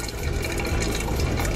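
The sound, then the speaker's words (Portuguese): Water runs into a coffee pot being filled before brewing coffee, a continuous rushing, gurgling flow at steady moderate loudness without any voices. “Bora encher esse bule e depois passar pra garrafa térmica.”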